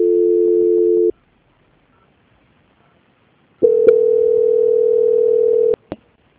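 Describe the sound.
A telephone line tone plays during a call transfer as two steady mid-pitched tones: a short one, then a gap of silence, then a longer one ending in sharp clicks.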